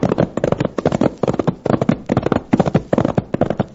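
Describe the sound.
Pony hooves clip-clop in a quick, steady rhythm as the rider urges the animal on. Many sharp, even hoofbeats follow one another closely, loud and clear, with no voices over them.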